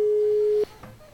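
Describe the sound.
A single steady telephone tone sounds while a radio presenter rings a caller during an on-air phone game. It holds evenly for about half a second, then cuts off abruptly and leaves a quiet background.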